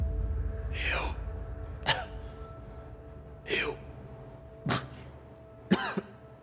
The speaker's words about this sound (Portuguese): Vocês escutam uma tosse.